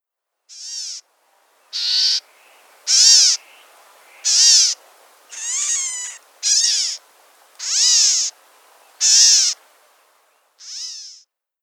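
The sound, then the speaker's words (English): A California gnatcatcher gives nine separate mewing, kitten-like calls, each a short, buzzy, harmonic note spaced about a second apart, clear and fairly loud with no other sounds. “Our last gnatcatcher to date is the California gnatcatcher. And here is what the California gnatcatcher sounds like.”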